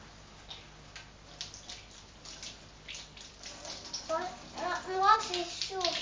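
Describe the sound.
A child plays in cold bath water: light splashes and sloshing, with a child's voice speaking over the water toward the end.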